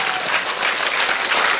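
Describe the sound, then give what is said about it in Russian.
A standing ovation from an audience, dense continuous clapping that holds steady and loud throughout a short stretch with no voices. “Давайте по традиции по-омской мы его встретим бурными овациями. Можно встать? Давайте встанем.”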